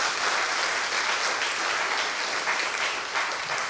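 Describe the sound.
A church audience applauds to welcome a team back. The clapping is loud, dense and steady from start to finish.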